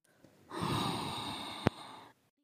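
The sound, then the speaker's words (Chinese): A loud, rasping snore, one long drawn breath lasting under two seconds, with a brief sharp click near its end before it cuts off into silence. “嗯，哦，这是什么声音啊？仿佛是哪里响起了巨大的鼾声。”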